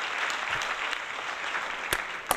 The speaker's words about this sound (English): Give it up, y'all.